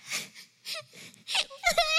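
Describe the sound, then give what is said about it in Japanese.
A person cries in a few broken, halting sobs and whimpers, with short voiced wails that waver in pitch between gasping pauses. The crying grows louder toward the end. “何泣いてんだよ。”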